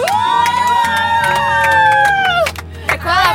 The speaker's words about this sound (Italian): volevo dirti di non illuderti, gli applausi non erano per te